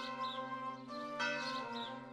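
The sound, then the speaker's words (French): A bell striking midnight: a deep, resonant ringing tone that hangs in the air, with a fresh stroke partway through renewing the sustained hum. “elle entendit sonner le premier coup de minuit”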